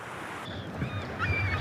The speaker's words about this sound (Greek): Ακούες τη θάλασσα? Μας ψιθυρίζει σιγά.